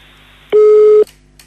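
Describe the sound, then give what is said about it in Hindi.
A single loud, steady telephone tone lasting about half a second, plainly pitched and cut off cleanly, heard as a call fails to connect. “Collar हमारे साथ बार बार जुड़ने की कोशिश करते हैं लेकिन किन्हीं वजहों से उनकी कॉल हमसे डिस्कनेक्ट हो जाती है।”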